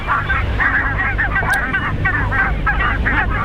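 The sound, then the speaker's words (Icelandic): A goose honks in many loud, nasal calls in quick succession, over a steady low rumble. “Þetta er svona, ef ekki segja, gæsalegt hljóð, er það ekki?”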